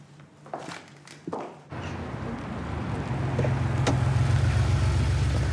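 A car drives up; its engine rumble grows louder and then settles into a steady low drone. A few brief knocks come just before it.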